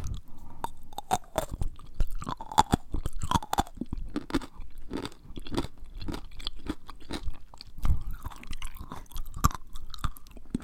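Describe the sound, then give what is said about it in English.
Crunchy pickled radish being chewed: many sharp, wet crunches in a steady biting rhythm, loud and close, with no talking. “I didn't realize it was going to be so crunchy. Well. I thought those were pickled. They're pickled radish.”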